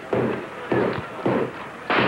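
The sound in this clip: A policeman's truncheon smashing into a squash, with four heavy, dull thumps spaced roughly evenly, each a loud, broad burst that hangs briefly before the next blow.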